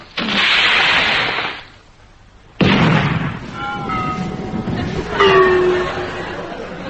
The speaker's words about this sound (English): Chief, sir, stand by the fire depth charges. Depth charges ready, sir.